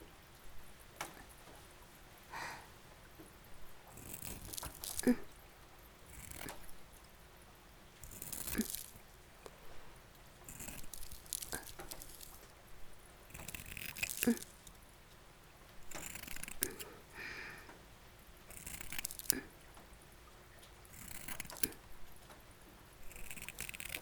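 Scissors cut around something in many crisp, faint snips at an uneven pace, with soft rustling and crunching between the cuts.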